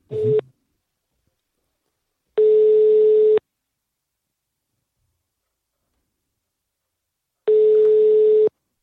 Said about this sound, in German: Wählen wir mal durch.